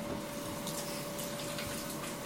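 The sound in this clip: Running tap water pours steadily while hands are washed during cooking, a faint, even hiss with no clear breaks.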